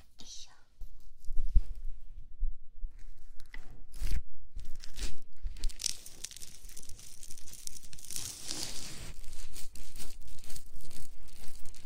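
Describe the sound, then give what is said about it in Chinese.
Soft rustling and crinkling of a towel being draped over someone during a haircut, with several bursts of fabric noise and a quiet whispering voice throughout. “先帮你盖上毛巾。”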